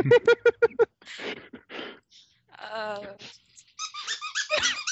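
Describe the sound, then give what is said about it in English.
Squeaky turtle toy squeezed at a dog: a rapid run of about six sharp, high-pitched squeaks at the start, followed by people talking. “squeaking the turtle at the dog, and the dog is looking at him like, what?”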